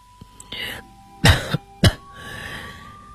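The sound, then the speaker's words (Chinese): A man coughs twice, sharply and loudly. The first cough has a brief catch trailing after it, over a faint steady hum. “德里特里便咳嗽了两声，继续说下去”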